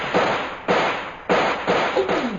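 Gunshots in a firefight, a rapid series of sharp, booming reports that each decay quickly into a rough wash before the next one lands, loud and without speech.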